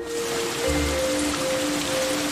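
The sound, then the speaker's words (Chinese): A sudden rain shower gives a steady, even hiss of falling drops with no breaks, joined by faint sustained tones, and no voices. “哎，这怎么突然还下雨了呢？”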